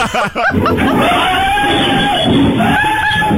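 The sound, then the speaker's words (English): A man screams for his life in a liquor store. A few short voiced bursts lead into a long, high, strained cry held over noisy, agitated background commotion. “Now, this is a liquor store and a man screaming for his life.”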